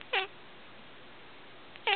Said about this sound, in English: And on his farm he had a cat.